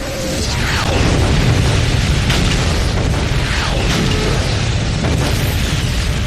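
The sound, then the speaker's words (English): Artillery creeping barrage explosions: a continuous, dense roar of overlapping blasts with heavy low rumble, holding a steady loud level throughout without clearly separated individual booms. “Now the artillery launches a creeping barrage, designed to provide a moving curtain of steel to protect the advancing infantry.”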